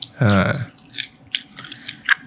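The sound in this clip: Someone bites into crunchy fried chicken, giving a few crisp crunches and chewing clicks. A short voiced exclamation comes just before the bites.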